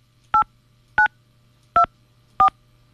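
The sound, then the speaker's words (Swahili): Four telephone keypad tones sound in sequence as a call is placed, each a short, clean two-note beep with brief gaps between, over a low steady hum. “Kwa hivyo ningependa kumpigia Melvin. Melvin, naomba ushike simu yetu ili tuzungumze na tuone vile tutasaidia.”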